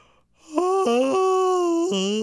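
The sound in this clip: A man gives a deliberately forced, exaggerated yawn, a drawn-out, whiny, voiced moan with a wavering pitch that holds for nearly two seconds after a short pause.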